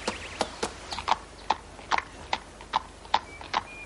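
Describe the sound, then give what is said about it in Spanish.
Hooves of a horse trotting in a steady, even clip-clop, many sharp beats at a regular pace over a low, quiet hiss. “Sancho se mantiene a lomos de Rocinante. Escapa al trote.”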